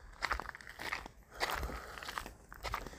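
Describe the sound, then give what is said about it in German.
Barefoot footsteps stomping through a wet park, a quiet run of soft, crunchy, slightly squelchy steps in an uneven rhythm. “ich muss ein bisschen stapfen, dass ich nicht, also ich, ich, bin immer noch barfuß, ähm, dass meine Füße nicht zu nass werden und nicht zu dreckig.”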